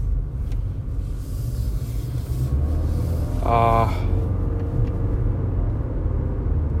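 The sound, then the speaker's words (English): Low, steady rumble of a car being driven, with engine and road noise running continuously through the whole stretch, swelling slightly toward the middle. “I'm driving right now at work.”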